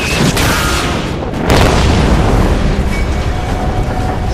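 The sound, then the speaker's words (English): A huge explosion as a 1,000-pound semi-armor-piercing bomb strikes the battleship Yamato astern. It makes a loud, deep, sustained rumbling roar that surges partway through and keeps rolling to the end. “And the other strikes further astern with an incredible boom.”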